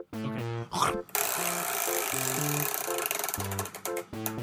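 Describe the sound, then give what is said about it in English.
A chore wheel spun by hand gives a dense, rapid ratcheting tick for roughly two seconds, with people talking just before and after the spin. “So go ahead and spin the chore wheel now.”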